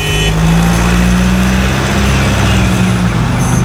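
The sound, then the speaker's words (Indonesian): Loud engine roar of a car accelerating hard through a yellow traffic light, a dense, steady rumble throughout with a sustained low engine note. “Masih bisa tancap gas nih. Pasti bisa. Gaspol.”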